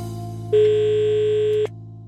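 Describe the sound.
A telephone rings back on an outgoing call: one steady, sustained tone lasts about a second over a low background hum, then cuts off.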